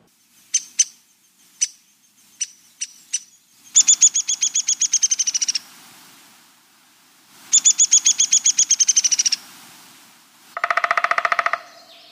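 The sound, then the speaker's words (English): Downy woodpecker calls: about six sharp, separate pik notes, then two rapid whinnies of many quick notes, and finally a short, fast burst of drumming. All are loud and clear with no voices. “Well, that was the pick, whinny, and drumming sounds of a downy woodpecker.”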